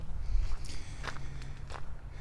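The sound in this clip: Footsteps of someone walking outdoors along a path lined with logs: several faint, soft steps in an uneven rhythm over a low steady hum.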